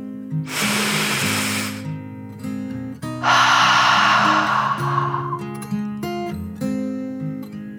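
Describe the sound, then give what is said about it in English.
Deep breathing in and out, two long airy rushes of breath over soft sustained musical tones, the second one longer and slowly fading. “took one last deep dragon breath, in and out.”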